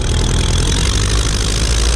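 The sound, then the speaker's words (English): Engine running steadily: a 12-litre Hispano Suiza V8 aero engine from a First World War fighter or bomber, fitted in an Amilcar chassis, gives a loud, continuous, dense rumble at an even idle-like pace with no talking. “The Hispano Suiza is obviously the engine, which is a 12-litre V8.”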